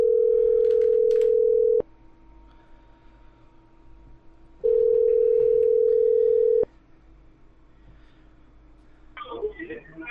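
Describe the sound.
Telephone ringing tone while a number is being called: two long, steady, loud beeps separated by a pause, with faint background noise between them and a short burst of voice-like sound at the end.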